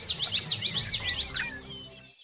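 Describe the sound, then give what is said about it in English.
Birds singing in the dawn chorus just before sunrise: a rapid run of repeated high, sweeping chirps, loud and bright, that thins out and fades toward the end. “The Dawn Chorus. Just before sunrise, birds begin to sing. One by one, then all together,”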